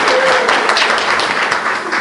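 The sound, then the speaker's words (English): Audience applause, loud and dense, with many hands clapping together in a sustained, steady roar of claps. “Give a round of applause for that.”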